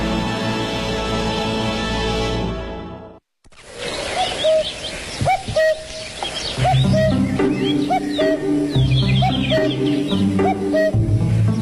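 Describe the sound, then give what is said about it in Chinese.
A cuckoo calls repeatedly in short, clear notes over a dense mix of other bird sounds, after a brief sustained tone at the start. “大家好，听见我的叫声了吗？布谷布谷，所以呢，我的名字又叫布谷鸟。”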